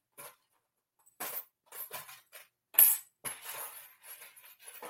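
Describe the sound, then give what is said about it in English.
Small charms clink and rattle as they are grabbed out of a box, heard as several faint, bright jingling bursts at irregular intervals. “It's hard to grab these charms out of this box that I have.”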